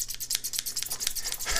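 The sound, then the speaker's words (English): Scissors snipping during a joking mock haircut: a rapid series of crisp metallic cuts with a dry, rubbing texture. “I'll do it too. I got scissors right here.”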